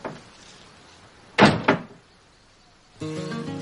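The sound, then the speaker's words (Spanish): A man shuts the door of a house: two sharp wooden thuds land in quick succession, then a quiet pause before a steady tonal sound begins. “Una vez dentro el marido cierra la puerta.”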